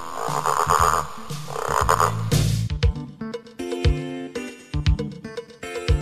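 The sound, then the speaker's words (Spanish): Frog croaking, opening with long raspy, throaty calls and breaking into a run of short, rhythmic croaking pulses, loud and clear with no talk. “Nací de un huevo pequeño, con una cola muy larga, y dando saltos me muevo para zambullirme en el agua. La rana.”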